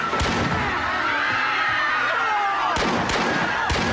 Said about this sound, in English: Vinny shoots Gina in the chest. She collapses as blood spurts through her dress.